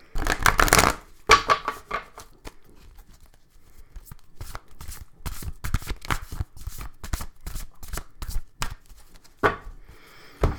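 A deck of oracle cards is shuffled and cut, giving many crisp riffling slaps and snaps in uneven bursts, with a dense flurry at the start and short, sharp card taps spread through the rest.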